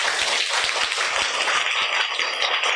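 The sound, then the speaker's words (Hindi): Schoolchildren clap for their teacher in a dense, steady patter of many quick claps that keeps up throughout, with little rise or fall. “बच्चे ma'am के लिए ताली बजाओ”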